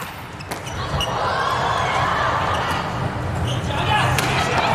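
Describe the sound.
In a volleyball match, a ball is served and then struck hard in a powerful attack. A couple of sharp, percussive impacts stand out over a continuous busy background with voices.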